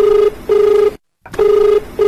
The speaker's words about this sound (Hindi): Doctor साहब देखें एक फोन आई गलबा।